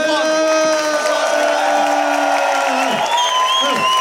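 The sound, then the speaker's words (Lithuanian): A crowd cheers, whoops and claps for a young comedian, with loud, sustained shouting voices over a bed of clapping that stays steady and full throughout. “Aš noriu, kad jūs paplotumėt konkrečiai Emilijų Kubui.”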